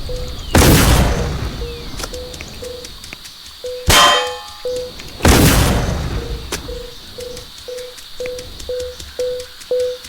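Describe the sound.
A bullet bomb explodes in a video game: three loud, booming blasts ring out among a string of short, evenly repeating electronic beeps.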